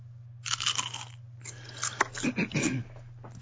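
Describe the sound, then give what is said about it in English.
Crunching from a bag of crisps: a few bursts of crisp, crackling crunches separated by short pauses, fairly faint over a low, steady hum, with no talk. “That was a bag of crisps, by the way.”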